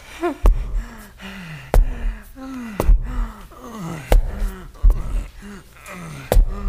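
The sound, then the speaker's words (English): Heavy panting from a man out of breath after climbing stairs: a steady run of loud, voiced gasps and huffs, each breath sliding down in pitch. “God, he's taking the stairs. That means he's going to be way out of breath.”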